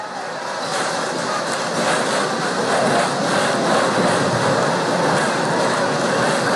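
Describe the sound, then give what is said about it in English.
Stiff wind blows out toward center field at a baseball stadium, strong enough to hold the flags straight out: a steady, loud, unbroken rushing roar with no talk over it. “Wind continues to blow out to center field. Again, both of those flags, the American flag and the Texas flag, at 90-degree angles. That's how stiff a breeze it is.”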